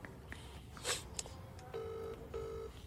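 A telephone being dialed: a few faint short beeps, then two steady electronic tones separated by a brief gap, fairly quiet throughout.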